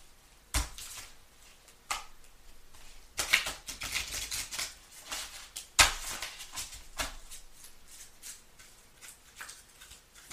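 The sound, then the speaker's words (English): Oracle cards being shuffled and pulled from the deck: irregular bursts of papery riffling and slapping, some in dense flurries and others as single sharper snaps, with no talk. “All right, I'm about to pull the Oracle card.”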